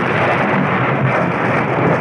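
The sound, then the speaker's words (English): Thunder rumbling through a wild electrical storm over the city of Rome, a loud, dense, continuous roar with no breaks across the whole stretch. “That 15th of the month, the city of Rome is racked by a wild electrical storm.”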